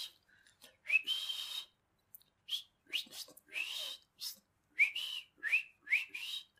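A person whistles a series of short, bright chirping calls, copying a wrestler's signature whistle. Many quick rising whistle notes come in uneven bursts, some run together, with brief silences between them.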